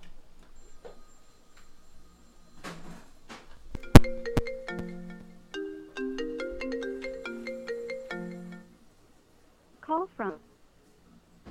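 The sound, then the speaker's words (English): Phone ringtone for an incoming call: a melodic run of electronic notes plays for a few seconds, preceded by a couple of sharp clicks and followed by a brief faint sound. “Are we taking another phone call or are we leaving? Yeah, sure. Why not? Well, hang on. Keep ringing.”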